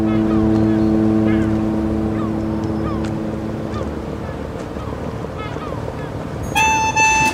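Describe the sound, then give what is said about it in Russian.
Horns of two passenger motor ships passing each other on the Volga, one a three-deck vessel: long, sustained low blasts over a steady engine drone, with a higher, brighter horn tone sounding near the end. “По голубой воде навстречу скользят два теплохода. Один из них, трехпалубный, постепенно заслоняет собой другой.”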